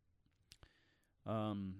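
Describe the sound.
Two sharp clicks of a pen in quick succession, faint and dry, followed after a short pause by a brief, louder voiced sound from a person.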